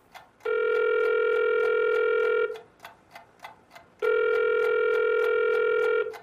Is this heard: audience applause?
no